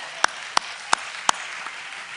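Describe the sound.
Sharp hand claps for a performer: four crisp, evenly spaced claps ring out loud and alone over a low, steady background hiss.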